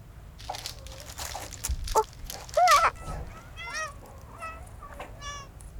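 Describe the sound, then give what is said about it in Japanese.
Cats meowing as they gather on an island populated by cats: several short, high-pitched meows, overlapping toward the end, over soft rustling and a brief thud. “うわっ！猫ちゃん、集まってきたぞな、もし。こりゃすごいとね。さすが猫島、”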